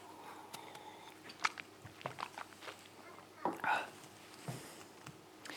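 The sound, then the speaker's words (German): A sip of a drink: a short, soft slurp and swallow with faint mouth clicks, set among quiet rustles and small handling noises. “Jetzt einmal einen Schluck trinken.”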